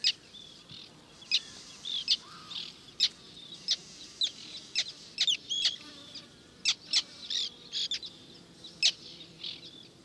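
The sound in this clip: Arctic terns calling in a breeding colony: many sharp, high, harsh calls in irregular bursts, some overlapping, over a faint background murmur, with no talk.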